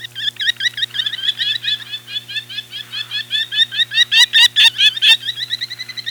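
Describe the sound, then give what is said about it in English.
Merlin falcons calling near their nest in a lakeside neighborhood of Duluth: a long, rapid series of many sharp, high chattering notes that grow louder toward the end, over a steady low hum. “At least one pair of merlins is nesting in the lakeside neighborhood of Duluth again. These pretty little falcons are very noisy near their nests.”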